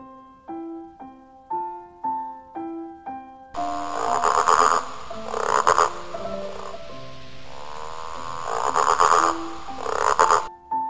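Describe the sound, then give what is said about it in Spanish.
Frog croaking in a steady, rhythmic run of low, buzzy calls about every half second, later joined by a louder, dense layer of sound with the croaks continuing through it. “Oyó una vez un león el croar de una rana y se volvió hacia donde venía el sonido”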